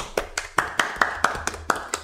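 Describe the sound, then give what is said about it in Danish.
Slow, evenly spaced hand claps from a small group applauding themselves, about eight crisp claps in a steady rhythm over a faint low hum, with no talking. “Jeg synes, vi fortjener lige at give os selv et lille bifald.”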